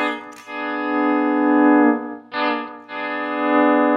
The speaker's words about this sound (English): sometimes you can get lucky and grab the A string as you bend up the D to make it sound right on.